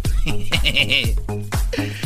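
Sheep bleating, an animal brought onto a New York subway train: several loud, wavering bleats with a shaky, quavering pitch, close together.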